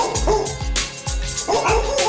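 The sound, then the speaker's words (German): Dogs barking: several sharp, loud barks and yips in quick, uneven succession, with brief whimpering tones between them. “Geht's jetzt am Platz. Aus jetzt. Erste Hundsviecher.”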